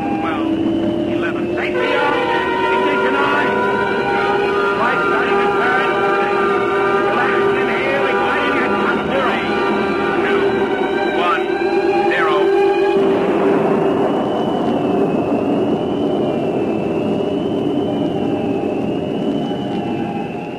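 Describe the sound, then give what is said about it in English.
A generator and engine run during a rocket launch countdown: a loud, steady mechanical drone with layered humming tones that shift partway through, while voices talk over it. “Generator going. 23, 22, 21. Slow down on your engine.”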